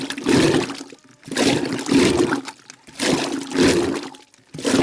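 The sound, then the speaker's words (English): Milk churns into rumbling froth as a rope pulled back and forth turns a paddled wooden rod one way, then the other. Loud, watery sloshing surges come in a regular rhythm, separated by short pauses. “Then there's a rope coiled around the middle of the rod, which Amma holds by its free ends. And when she pulls back and forth, the rod turns one way and then the other. And its paddles churn the milk into a rumbling froth.”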